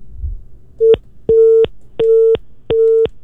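Telephone busy tone after a call is disconnected: a short clipped beep, then three longer steady beeps at an even pace, loud and alone.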